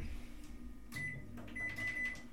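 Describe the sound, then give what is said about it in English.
A microwave oven runs with a faint, steady low electrical hum, and a thin high whine fades in and out over it. “here's the microwave.”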